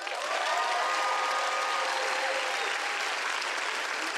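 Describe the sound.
A church audience applauds a returning guest speaker, with steady, dense clapping that holds at an even loudness throughout.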